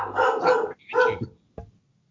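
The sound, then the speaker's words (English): A big adult dog, not a puppy, gives a few loud, throaty barks, then a short, fainter one before falling quiet. “How big is she now? She sounds like a big dog.”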